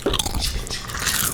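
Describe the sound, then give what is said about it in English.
Crisp crunching as someone bites into Kettle crinkle cut salt and fresh ground pepper potato chips, a short burst of brittle crackling chews. “Well, now we're eating the crinkle cut salt and fresh ground pepper.”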